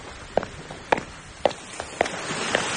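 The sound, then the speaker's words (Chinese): Footsteps of someone turning and walking away: five evenly spaced, crisp steps in a steady rhythm over a low background hiss. “秦秘书小声地回答着，转身走了。”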